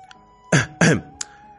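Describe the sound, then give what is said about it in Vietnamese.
Two short, dry throat-clearing coughs come in quick succession, both loud and rasping, followed by a faint brief click; the rest is quiet apart from a low steady hum. “Đứng ở đầu giường, Từ Ngôn trầm ngâm một lát mới ho khan hai tiếng nói.”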